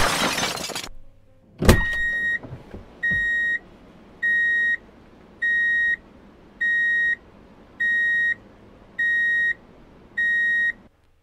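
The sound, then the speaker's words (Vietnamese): Car horn beeps in a street: seven steady, evenly spaced high tones after a sharp, loud hit near the start, over a low background rumble. “Tiếng còi xe y ngỏi, Trâm không nghe thấy nữa”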